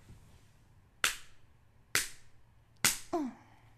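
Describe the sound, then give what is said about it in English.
Three sharp spanks on bare skin land about a second apart, each a loud, crisp slap that rings off quickly, followed at the end by a short vocal exclamation. “Turn on your side, three spanks.”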